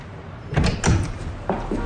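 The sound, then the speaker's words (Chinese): A door is pushed open, giving a few soft thumping, rattling bursts over a low background hiss. “这时，技术处长推门走了进来。”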